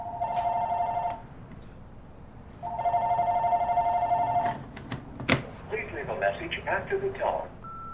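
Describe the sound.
A telephone rings in two long bursts of bright, steady electronic trilling separated by a short pause, followed by scattered clicks and clatter.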